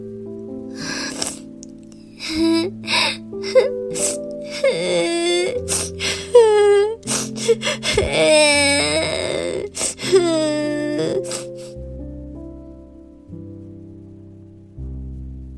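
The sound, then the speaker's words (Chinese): A child crying loudly in a string of wailing sobs and drawn-out cries whose pitch wavers up and down over sustained low tones, which continue alone after the crying stops. “但他仍然不懂该怎么应付，于是又大哭了起来。”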